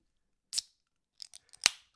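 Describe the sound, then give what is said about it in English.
A beer can cracked open against a microphone: one sharp crack, then a few small clicks, then a louder, bright snap with a short hiss. There is no talk. “We go get another one. Crack it on the microphone. This will be like your signature move. You can crack a beer on the microphone”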